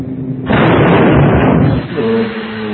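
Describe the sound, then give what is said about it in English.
Depth charge explosion aboard a submarine: a broad, roaring blast that holds loud for about a second and a half before dropping back to a steady low hum. “What makes the metallic clicks before the depth charges, Tosky? Well, we figure it's the detonator going off before the main charge.”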